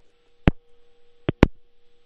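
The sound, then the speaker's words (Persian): Telephone line tone after a call is cut off: a steady low electronic tone runs throughout, broken by three sharp clicks. “متاسفانه که تلفن آقای حافظی قطع شد”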